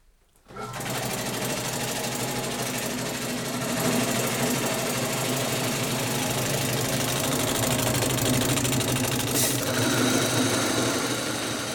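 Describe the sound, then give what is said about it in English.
An electric stone grain mill grinds spelt in a bakery: a loud, steady mechanical whir and rumble that starts abruptly after a brief quiet moment and then holds constant, dense and unbroken, to the end. “I'm going to turn on the mill and put in just a little bit with a scoop and then tighten the stones till I get the grind that I want”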